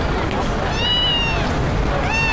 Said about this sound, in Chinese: 你看他们家新来了只猫，好特别啊，它是黑色的。